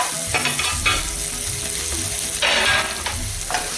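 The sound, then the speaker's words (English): Onion frying in a pan, with a steady sizzling crackle throughout and a few louder bursts of stirring. “fry off your onion until it goes nicely translucent, just turning brown.”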